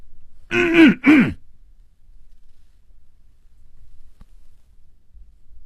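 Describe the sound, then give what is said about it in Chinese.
A man coughs twice in quick succession, two short, fairly loud throaty bursts, followed by near silence with faint background hiss. “他努力地鼓足了勇气，咳嗽了一声。”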